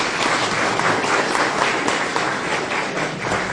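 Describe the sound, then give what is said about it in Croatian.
Sustained applause from an audience at a book promotion event, a dense, steady wash of clapping that holds at an even level from start to finish with no voices on top. “pa vas molim da naše medije pozdravimo jednim aplauzom.”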